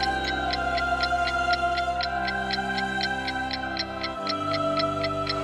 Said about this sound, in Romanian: Ceasul a bătut din nou